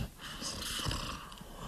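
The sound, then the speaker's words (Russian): A man snores loudly through his nose, making one continuous breathy, whistling rasp with a rough nasal rattle that fills the whole short clip. “Тут Григорий Григорьевич еще вздохнул раза два и пустил страшный носовой свист по всей комнате, всхрапывая по временам так,”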